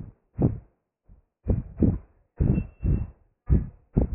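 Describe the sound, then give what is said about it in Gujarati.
Heartbeat thumping in low, soft lub-dub pairs, about four double beats at a steady, calm pace, alone without other sounds. “અત્યારે ધબકાર સંભળાય છે,”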